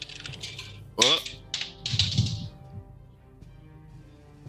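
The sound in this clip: A die tumbles off a table during a tabletop role-playing game session, making a few light, sharp clatters and clicks, with a voice exclaiming alongside.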